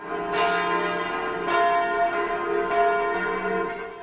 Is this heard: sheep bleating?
no